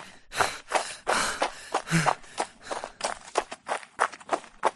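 Footsteps of people running: a quick, uneven run of many loud, sharp footfalls that follow each other closely throughout.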